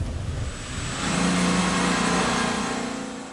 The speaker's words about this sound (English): So right now, we are driving through the village of Buchenbach towards the workshop where our mechanic AJ is working.